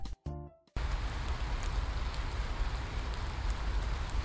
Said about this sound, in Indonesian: Suatu hari, musim hujan telah tiba. Udara terasa lembab